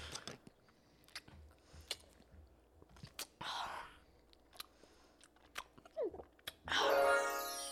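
Someone chews sour citrus-flavored Halloween candy: quiet, scattered crunchy clicks and bites, with a louder noisy burst midway and another near the end.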